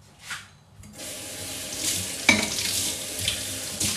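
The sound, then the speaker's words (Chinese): Tap water runs over a dusty plate as it is rinsed in the kitchen. A brief splash comes first, then a steady rushing stream with small clatters and surges in the flow. “我洗个盘子出来。冲一下，我看一下这盘子放放久了有灰，”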